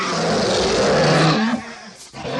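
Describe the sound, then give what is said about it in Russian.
An angry bear roars loudly and deeply in one sustained, rough roar that then breaks into shorter, lower growls, heard alone. “Рассердился медведь, поднялся из-под дерева и бросился, рыча, на обидчика.”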